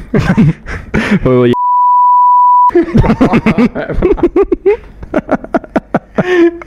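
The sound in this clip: A single steady censor beep lasting about a second, a pure mid-pitched tone that cuts into the middle of speech, with people talking quickly before and after it.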